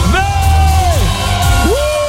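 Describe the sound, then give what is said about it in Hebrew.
A contestant yells as loudly as possible in a shouting contest for a prize. One long, loud, sustained shout holds steady, falls in pitch, then breaks and rises again, with low background noise underneath. “וואי, איך הוא צעק חזק זה, כל הכבוד.”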